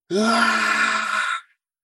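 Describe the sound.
A voice imitates a terrified, full-breath scream: one loud, sustained cry lasting about a second and a half at a steady strained pitch, ending abruptly in silence.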